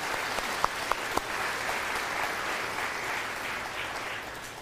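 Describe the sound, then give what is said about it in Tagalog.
Church audience applauding: steady, dense clapping with a few sharper individual claps early on, then tapering slightly toward the end. “Can we give praise to the Lord? Palakpakan natin ang Panginoon.”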